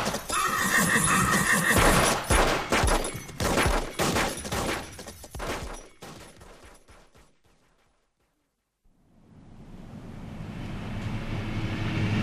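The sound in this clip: Gunfire laid down as covering fire: a long, loud volley of sharp, rapid shots mixed with whinnying horses, which breaks off into silence and then gives way to a rising rush of steady noise.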